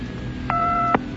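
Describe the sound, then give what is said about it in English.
A single touch-tone keypad dialing tone, a steady two-note electronic beep lasting about half a second with a soft click at its start and end, over a low background hum. “If you have a touch-tone phone, please dial 1 if your call is of a personal nature, 2 if your call is business.”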